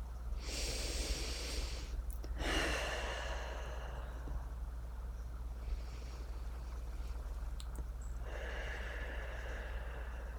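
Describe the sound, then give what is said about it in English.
Slow, deep breaths during a guided walk on an outdoor trail, drawn in through the nose and let out through the mouth. A few long, airy hisses are separated by quieter pauses, with no talking. “I'd like you to take 3 breaths. Let's breathe in through our nose and out through our mouth.”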